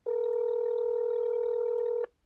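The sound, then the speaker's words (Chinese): A telephone tone during a call to a public inquiry line: a single steady beep holds one mid pitch for about two seconds, then cuts off abruptly. “记者又按照这名工作人员的提示拨打了对外咨询的电话，但电话始终无法接通。”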